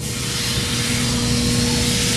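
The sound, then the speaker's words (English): A steady, loud hiss of batter meeting a hot pan, thinner than pancake batter and spread across the whole surface, holding an even level from start to end with no pauses. “We have a little scoop. We pour it in the pan. When you pour it in the pan, you have to do all surface.”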